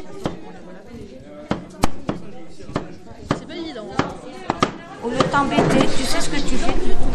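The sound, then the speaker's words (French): Sharp knife knocks on a cutting board as a very hard vegetable is cut in half in a cannery kitchen, a rapid series of loud, crisp chops over a busy background, with people talking. “Moi je le coupe en deux parce que c'est très dur.”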